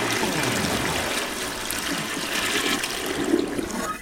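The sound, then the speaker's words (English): Toilet flushing, a continuous rushing, gurgling wash of water that stays loud and even for the full four seconds. “Insert the sound of Flushy the Toilet. Whoosh. Flush, flush,”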